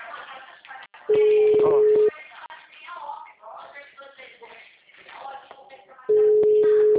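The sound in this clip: A telephone call signal: a steady, mid-pitched ringback tone sounds in two long beeps roughly five seconds apart, each lasting about a second, while people talk throughout.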